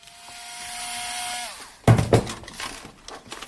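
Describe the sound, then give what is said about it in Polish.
A small electric screwdriver made for electronics work unscrews a screw in a home workshop: a steady motor whine winds down in pitch, then gives way to several clattering knocks and rattles. “Ach, jeszcze jedna śrubka. Taka mała wkrętarka, bardzo dobra do elektroniki. I wykręcam. Jesteśmy w moim warsztacie.”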